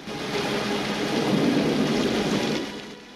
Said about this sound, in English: It's raining heavily.